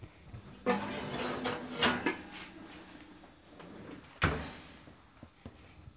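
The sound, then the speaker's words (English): A heavy Dutch oven is pulled out of an oven with two thick pot holders, making a few metallic clunks, knocks and scrapes, with one noticeably sharper, louder clank among quieter handling noises. “I now have 2 very thick pot holders, and I'm going to pull that Dutch oven out of the oven.”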